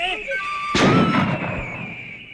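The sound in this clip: A single sharp gunshot in a Chinese radio drama, a sudden loud crack followed by a brief decaying rumble, with faint tonal background sounds before it and no speech.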